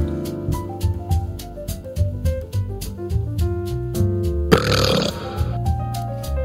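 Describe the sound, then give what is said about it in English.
A long, drawn-out burp with a gravelly, pulsing tone that shifts pitch in steps, ending in a harsh, noisy burst before settling back into a rough rumble. “Stop burping.”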